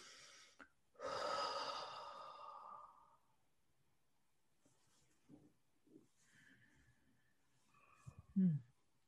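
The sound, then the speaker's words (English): A deep breath drawn in and then blown out in one long, breathy, sigh-like exhale, followed by a few faint soft breath sounds in otherwise quiet surroundings. “And then just take a deep breath and blow it out.”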